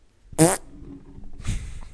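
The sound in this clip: A voice imitates a fart with two blubbery bursts: a loud, buzzy one lasting about a quarter second, then a softer, rougher second one a second later, with no talk.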